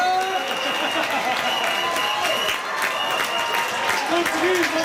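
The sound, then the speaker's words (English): Portugal football fans celebrating a World Cup comeback: a dense, loud roar of cheering, clapping and shouting voices that stays steady throughout. “Portugal fans were celebrating a big comeback yesterday afternoon.”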